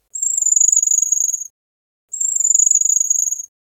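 A common scattered trill phrase of bird song, resembling the calls of waxwings: two identical high, rapid trills, each lasting over a second and separated by a short silence, heard alone.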